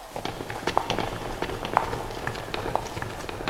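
Footsteps of a group of people walking in a cave: many quick, soft steps over a steady noisy background.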